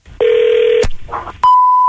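Telephone tones at the start of a prank call: a steady mid-pitched tone, then a sharp click and a short muffled stretch, then a higher steady tone that runs to the end.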